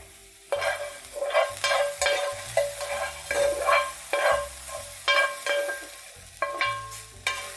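Food sizzles steadily in a pan as it is stirred, with many regular scraping strokes over the frying hiss. No one speaks.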